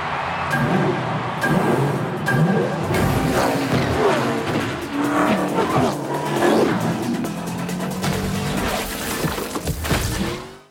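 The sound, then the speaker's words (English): Cars race in the video game Rocket Racing, a dense, continuous mix of revving engines and tire squeals that stays loud throughout and then cuts off at the end. “They're leaning into Rocket Racing, which is essentially Rocket League combined with Mario Kart.”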